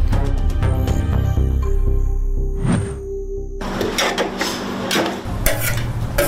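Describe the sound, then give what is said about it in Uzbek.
Uzbek osh (plov) is being cooked, with loud, continuous scraping and stirring strokes against the pot amid a bed of sizzling, the rasping rhythm irregular and busy. “Bu yerda faqat osh pishirasizlarmi yo boshqa nimalaring bor? Osh pishiramiz.”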